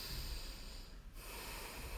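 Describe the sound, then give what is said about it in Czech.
Nasal exhale during a singing breathing exercise: a steady, breathy rush of air through the nose that stays fairly even throughout, dipping briefly about midway. “abys vydechovala skrz nos ven, to znamená nádech nosem i výdech nosem.”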